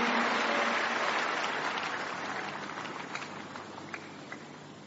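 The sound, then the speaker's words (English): A church audience applauds for the Lord at a miracle service with dense, continuous clapping that starts loud and slowly fades over about five seconds. “Give the Lord a big hand, and please, you may be seated.”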